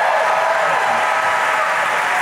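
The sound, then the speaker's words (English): Audience applause greeting guests as they are introduced: a thick, steady wash of clapping, loud and unbroken from start to finish, with no talk over it. “ladies and gentlemen, big round of applause for Michael Meadows and Tommy Smurl of Court Appointed Fame.”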